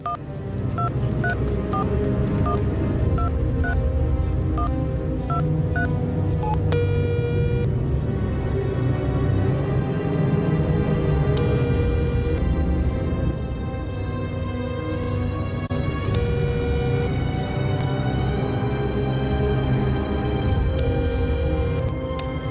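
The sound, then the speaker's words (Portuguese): Telephone keypad tones as a woman dials her doctor late at night in a drama: a rapid run of short beeps over a dense, loud musical score that continues throughout. “Vou ligar pro Dr. Dimitri. Será que ele me atende essa hora?”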